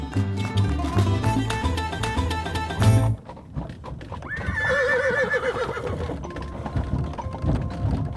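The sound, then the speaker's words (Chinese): Neighing horses, the sun goddess Sól's two celestial horses pulling the sun chariot, give a high wavering whinny over steady clip-clopping hooves, after a busy tonal passage that cuts off abruptly. “有一天，苏尔又带着两只天马，驾着太阳马车往天空的方向奔跑而去”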